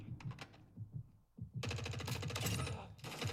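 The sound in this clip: Rapid automatic gunfire in a military shooter video game: a few scattered shots, then dense, loud bursts of fire that continue without a break through the second half.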